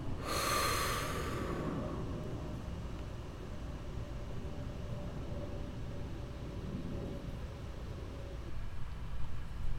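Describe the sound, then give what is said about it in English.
A slow breath in and out during a guided Christian prayer meditation, heard as a soft airy rush near the start, followed by quiet with only faint low background noise. “Inhale. Exhale.”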